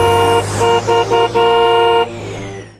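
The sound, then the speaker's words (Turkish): Car horns honk in a traffic jam, with a series of loud, blaring blasts ending in one long held honk over a low steady engine hum. “Of, trafik de hiç ilerlemiyor sanki.”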